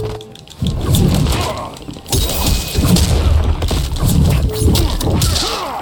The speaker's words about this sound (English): Laser pop. Laser beam.